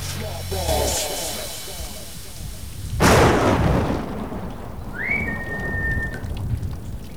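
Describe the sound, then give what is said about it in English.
A gunshot from a laser-sighted gun in a film scene in a damp chamber: one sharp, loud blast with a rumbling decay, then a brief rising electronic whine, with speech briefly at the start. “The laser at the end of her gun shoots out a thin red line through the damp chamber. Her bullets dislodge tins from a shelf”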